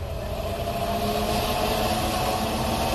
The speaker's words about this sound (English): Bring us in closer. Aye, aye, sir. Moving us in on sublight drive.